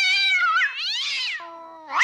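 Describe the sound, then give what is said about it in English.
A cat meows loudly in a long, drawn-out, wavering call that slides up and down in pitch, holds a steadier lower note, then starts another rising meow at the end. “somebody get that pussy cat out of here”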